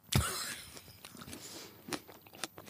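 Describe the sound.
A small, hard, firm tomato is bitten whole with one loud crunch, followed by a series of softer, scattered chewing crunches.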